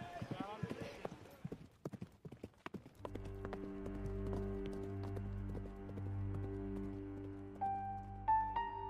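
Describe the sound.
Horses galloping during a polo game: rapid, irregular hoof thuds for about three seconds, then sustained low musical tones take over and continue to the end.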